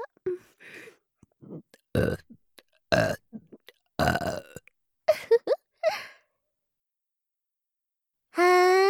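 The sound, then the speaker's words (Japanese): Burping, a long series of many separate burps of varied length and loudness with short pauses between them, followed by a silent gap and one longer, drawn-out tonal burp at the end. “ゲップ聞けて嬉しかった？”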